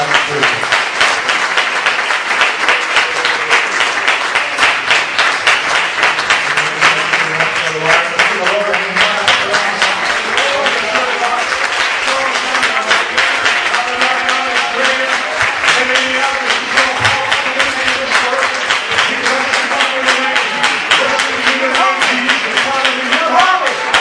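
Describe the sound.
A church audience applauds to welcome preacher Pastor Galen Thompson, with long, unbroken clapping that stays loud and dense throughout, with voices mingling through it.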